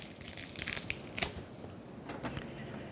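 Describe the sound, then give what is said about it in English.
Fresh cilantro leaves are torn by hand, giving a soft, continuous crinkling and rustling with a few sharper tearing snaps. The sound is faint throughout. “I'm gonna tear up some cilantro leaves and those will just get sprinkled over the top.”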